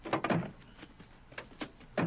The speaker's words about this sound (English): Shadowy figures climb out of the pursuit cars and angrily slam their doors.